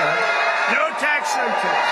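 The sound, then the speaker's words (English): A crowd cheering and whooping at a Las Vegas rally for President Trump, a dense, loud, continuous roar of many voices with shouted calls throughout. “The crowd cheering President Trump at a Las Vegas rally, repeating a campaign promise.”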